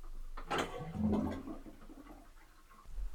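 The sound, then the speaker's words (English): Bathtub water draining, with a rushing, gurgling swirl that surges in loudness and then settles into a lower, steady wash. “Can I drain the tub now? Go for it.”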